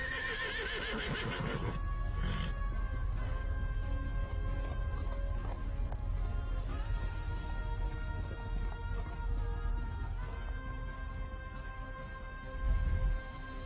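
Horses' hooves as two riders approach from afar, with a whinny near the start, then a low, steady hoof patter beneath sustained tonal sounds, fairly quiet throughout.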